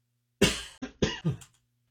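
Four coughs from someone clearing something caught in the throat: a loud, rough first burst, then three shorter ones in quick succession, with no talk.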